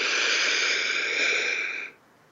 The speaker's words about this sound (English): let's take a breath in through the nose,